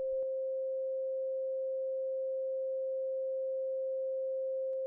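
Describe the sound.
A pure sine wave tone presented as a healing frequency: a single steady, unwavering mid-pitched hum that holds at an even level throughout, alone, with a brief click at its start.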